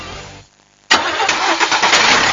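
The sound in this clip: A motorcycle or tractor engine starts: after a brief near-silent lull it catches abruptly and bursts into a loud, rough running roar that holds to the end.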